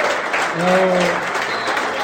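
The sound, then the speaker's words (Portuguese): Applause at a tournament gathering: a dense, steady crowd clapping that fills the whole clip, with a brief voice heard over it. “eu peço uma grande salva de palmas para um grande impulsionador deste torneio”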